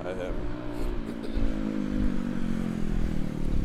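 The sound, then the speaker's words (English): Traffic noise from vehicles going past, recorded while on the move: a continuous low rumbling roar with engine-like revving that swells around the middle and stays heavy to the end. “you might hear that there's quite a lot of vehicles going past”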